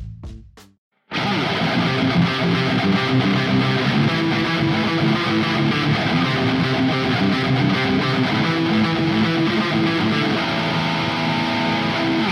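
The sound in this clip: A heavy metal riff on a distorted electric guitar bursts in after a brief quiet opening, then holds a loud, dense, steady wall of sound to the end.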